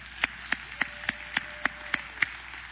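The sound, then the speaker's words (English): Hands clapping in unison for the dads at a Father's Day church event: eight sharp claps at a steady, even tempo over a low background hum. “Let's put our hands together for the dads.”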